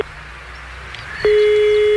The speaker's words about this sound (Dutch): Ja, we gaan bellen.